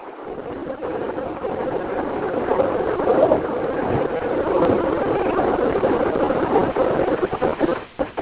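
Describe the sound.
A car engine runs while driving, producing a steady, muffled rumble of motor and road noise that stays even throughout, with a few brief knocks near the end.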